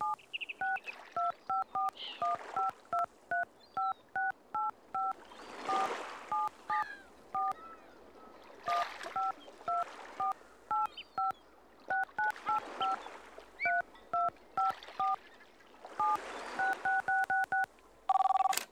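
A number is dialed on a touch-tone phone: many short, steady beeps come in quick bursts separated by brief pauses.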